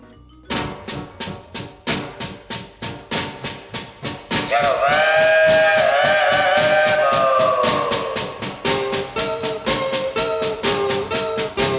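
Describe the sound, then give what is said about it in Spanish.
Steam locomotive at a railway station platform on the Valparaíso–Santiago line: a dozen rhythmic chuffs, then a loud, sustained multi-tone whistle that slowly sags in pitch, then the chuffing resumes. “Yo me voy en el último tren, ya está por salir, vamos al andén.”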